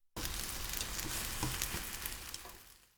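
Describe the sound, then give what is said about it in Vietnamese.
An egg omelette sizzles and fries as it goes back into the pan to cook its other side. The loud, dense hiss starts abruptly, holds steady for a few seconds, then eases off slightly at the end, heard alone. “Thì tiếp theo, cho phần trứng vào chảo trở lại để làm chín cái mặt còn lại.”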